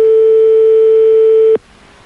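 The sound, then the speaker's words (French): A telephone line ringing on a call to a radio call-in number: a single loud, steady ring tone lasting about a second and a half that cuts off abruptly into quiet line hiss. “Ça sonne.”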